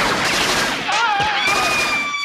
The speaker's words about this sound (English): Oh my God! They're shooting! They're shooting! Somebody's shooting!